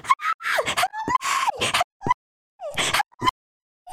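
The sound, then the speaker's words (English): A person screams near a gas station in a series of short, high, strained cries separated by brief gaps. The pitch wavers, rising and falling within each cry. “I'm like, someone's screaming.”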